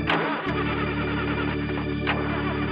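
A car with a broken motor trying to start: a loud, steady, buzzing engine drone with a harsh, distorted harmonic whine throughout.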